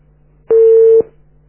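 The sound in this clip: A single steady telephone tone lasting about half a second sounds loudly as a phone call from Libya cuts off, over a low constant hum.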